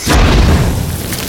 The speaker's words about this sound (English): The heather immediately burst into flames, and thick smoke curled up as the fire took hold.